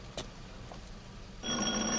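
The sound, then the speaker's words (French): A doorbell rung at someone's home: a brief click, then a sudden, loud, continuous ringing buzz that holds steady to the end over a low, quiet background. “Je vais sonner.”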